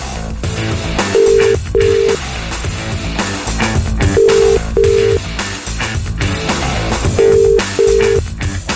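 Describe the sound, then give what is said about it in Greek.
A telephone rings over and over and goes unanswered. Steady paired ring tones repeat in three evenly spaced cycles, each pair a short double burst, heard over a dense, loud background. “Μαρία, δυστυχώς ο Τάκης δεν το σηκώνει.”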